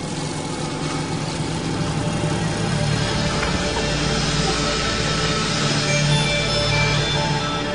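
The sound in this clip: An estate car drives toward a farm field, giving off a steady, loud, even rumble of engine and road noise that holds unchanged throughout, with no voices.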